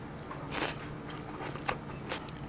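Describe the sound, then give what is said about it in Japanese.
Biting into tare-grilled food gives a few soft, crunchy bursts with chewing between them, faint and without talk. “基本ねタレ焼きなんですけど、いただきましょう。”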